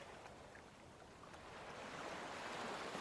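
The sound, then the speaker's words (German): Ocean waves washing onto a beach and drawing back: a faint, steady wash of surf that swells gently louder toward the end, with no voices. “Das weite Meer, die Wellen, die beständig zum Strand fließen und sich wieder zurückziehen.”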